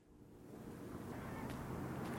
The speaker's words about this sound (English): It is a windy day in the port city of New Bedford, about 60 miles south of Boston.